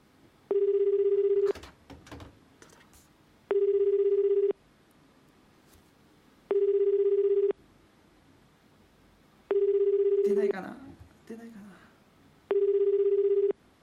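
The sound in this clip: Ringback tone of an outgoing phone call that goes unanswered: five steady one-second tones at even three-second intervals. People speak quietly in the gaps between the rings.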